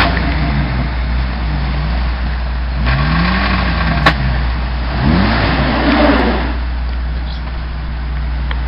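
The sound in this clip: A car engine revs hard toward the red line. The loud drone surges up and falls back in pitch in a couple of sharp sweeps over a constant low rumble.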